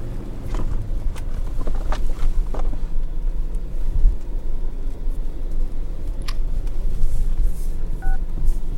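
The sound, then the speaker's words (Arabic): Phone dialing beeps as a call is placed on speakerphone inside a car. A few short electronic tones come near the end over a constant low engine rumble, with no voices. “اتصل على براء اتاكد منه اذا لمح حاجة، حطه على السبيكر.”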